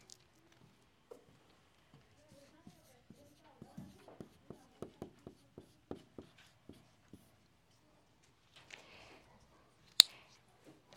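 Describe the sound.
Pens on paper as an audience writes down a scripture verse: many faint, light, evenly spaced taps and scratches, clustered mostly in the middle, then one sharper click near the end.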